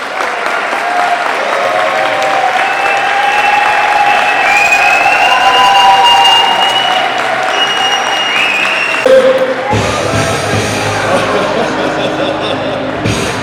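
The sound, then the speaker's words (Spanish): Applause at the close of a political campaign rally and festival: a crowd claps steadily and loudly for over ten seconds, with cheering mixed in, before the clapping shifts and begins to fade toward the end. “Un aplauso.”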